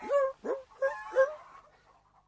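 A little dog whimpers in a few short, high, tonal yelps, then trails off into softer, fainter whines toward the end.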